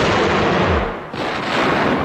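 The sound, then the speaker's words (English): Gunfire from a lead blunderbuss loaded with screw shot: a loud, booming blast with a rough, sustained roar that dips briefly midway and then surges again. “And hand me the lead blunderbuss with the screw shot.”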